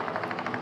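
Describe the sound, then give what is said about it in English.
Rapid rhythmic blade thumping from a helicopter departing a cattle station lodge, a brief run of even pulses at steady loudness with no voices. “And that's the sound of the helicopter departing.”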